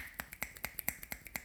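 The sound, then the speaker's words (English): Rapid finger clicks imitate a drum roll, a quick, faint and steady run of many sharp snaps heard alone. “I feel like I need to do a drum roll, but I can't because my mic and everything will jog and it'll make a horrible noise. Should I do a noise. Little click roll?”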